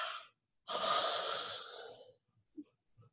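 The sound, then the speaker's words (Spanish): Quiet breathing in and out through an open mouth: a short airy breath, a pause, then a longer, rushing breath that tapers off, followed by faint small sounds. “Inhala, exhala, con la boca abierta.”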